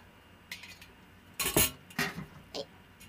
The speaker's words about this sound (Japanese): 炊飯器なんで、まあ、ご飯研いだご飯とお水を入れて、まあ、これにもお水入れますよね。で蓋をして、